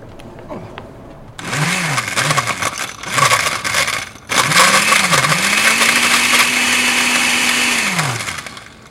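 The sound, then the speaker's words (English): Blender blending a drink: a few short whirring bursts, each rising and falling in pitch, then one long, loud sustained run that holds steady before winding down. “All right, let's go blend. Let's go blend. I'll do the blending. Try to do the blend.”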